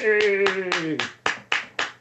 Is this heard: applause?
yes